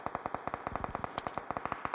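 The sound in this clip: Gunfire in a video game: a long burst of many rapid, evenly spaced sharp shots with a steady automatic-weapon rhythm, fairly faint, with no talk.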